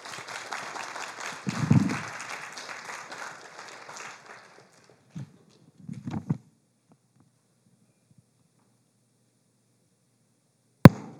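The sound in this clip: Audience applause welcoming guests at a church gathering, a brisk patter of clapping that fades out after about four seconds, followed by near silence with a few soft knocks and one sharp click at the end.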